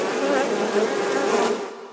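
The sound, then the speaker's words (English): Dense, loud buzzing of a swarm of killer bees, a continuous droning hum that holds steady and then fades away toward the end. “Killer bees!”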